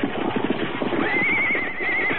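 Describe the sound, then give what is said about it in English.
Horses neigh in a high, wavering whinny held for about a second as they are being halted with a rope around a pole. A steady rumble of hooves and movement runs beneath it. “Steady there, your horses. Whoa, whoa up there. Take it easy there.”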